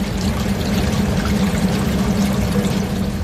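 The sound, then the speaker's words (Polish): River water gushes from a hose driven by a pump as it is poured into a gallery, a continuous, even rushing flow with no breaks. “wprowadzi rzekę do galerii przy pomocy specjalnej pompy i węża.”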